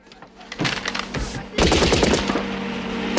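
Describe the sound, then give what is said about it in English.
Machine gun fire from men in a jeep shooting downward: loud, rapid rattling bursts that break in suddenly, then a heavier, denser burst that continues unbroken to the end. “Cindy and John get in as the men in the jeep fire down on them”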